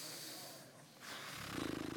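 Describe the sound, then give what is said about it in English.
Deliberate, audible breathing by a person: a long airy breath followed by a rougher, snort-like exhale that ends in a buzzing rasp. It is faint and heard alone. “Have you ever like taken your breathing off of autopilot before? I'm gonna do it right now. Everyone take your breathing off. Put it in manual for a minute.”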